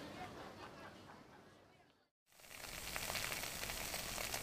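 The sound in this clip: Food sizzles and fries in a pan, a faint, continuous crackling hiss broken by a brief silent gap, after which the sizzle returns noticeably louder and brighter.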